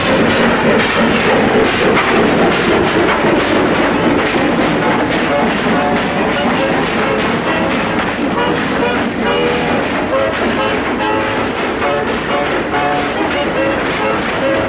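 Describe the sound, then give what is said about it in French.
A train, number 1504, passing through Saint-André station at 21:13 in the evening. It makes a loud, continuous roar with dense rhythmic rattling and clatter that stays steady from start to end, with no voices. “Ici la gare de Saint-André. Le 1504 vient de passer à 21h13. Ça y est, ça continue.”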